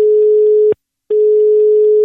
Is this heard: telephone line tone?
yes